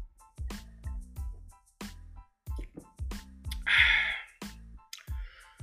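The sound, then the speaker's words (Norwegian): A single airy slurp of Earl Grey tea with a pinch of sugar and a splash of milk, a brief hissing sip set amid a voice talking before and after. “Jeg må ta meg en slurk av teen min her. Earl Grey med en liten klype sukker og en skvett melk.”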